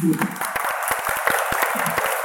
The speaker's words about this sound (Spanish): Yo creo que eso es algo que muchas otras industrias tendrían que estar mirando hacia nosotros, así que daros un aplauso.